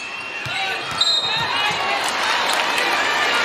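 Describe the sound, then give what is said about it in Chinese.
Basketball dribbled during a game against Spain, a series of dull, fairly regular bounces heard under steady talking and a constant background wash. “现在伯克斯运球有点多”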